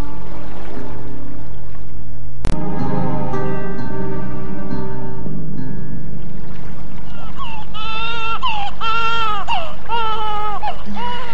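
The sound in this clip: An infant cries with a series of wavering, high-pitched wails in the second half. A sharp click and a steady tonal hum come first.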